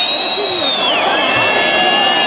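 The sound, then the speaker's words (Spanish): A bullfight crowd loudly shouts and roars, demanding an ear be awarded to the matador after the fourth bull, a dense continuous din laced with high whistling tones. “Qué manía de pedir la oreja a gritos en vez de sacar los pañuelos, que haya más cantidad de pañuelos.”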